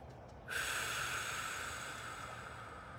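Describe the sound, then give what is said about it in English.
A single long, deep breath taken during a guided meditation: a quiet, airy rush that starts abruptly and is held for about two and a half seconds. “So, if you want to relax, take a deep breath.”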